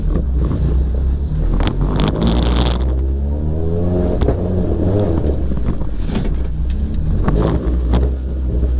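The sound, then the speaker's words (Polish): A car drives slowly around a yard, giving a steady low engine drone. The engine pitch wavers gently as the revs change, and some wind noise runs through it. “Dobra, jedziemy. Dobra, licznik dzienny zresetowany. 43,538. No to jeździmy po podwóreczu.”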